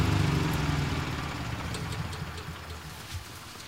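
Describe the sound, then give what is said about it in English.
A generator engine runs with a steady low, rumbling hum that weakens gradually over a few seconds. “Well, there goes the generator. So there goes the generator right after they finished and are celebrating their staggering success. The generator goes out”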